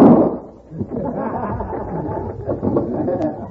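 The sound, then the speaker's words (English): A single gunshot in a radio drama holdup of a coach carrying gold, heard as a loud sharp burst that decays quickly, followed by men talking. “He shot the driver.”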